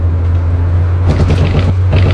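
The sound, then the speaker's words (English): A car drives along a road at night, with a loud, steady low engine drone and road rumble that is joined by hissing tyre or wind noise swelling in the second half. “This is the sound of someone driving along a road at night. He's not drunk. He's not speeding.”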